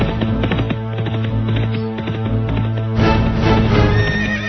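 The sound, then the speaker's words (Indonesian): Horses neigh and their hooves clip-clop as two royal officials ride up to a house, a steady rhythmic run of hoofbeats with whinnies throughout. “2 orang punggawa kerajaan dengan menunggang kuda.”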